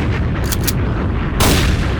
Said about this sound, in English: Bombs! Popping!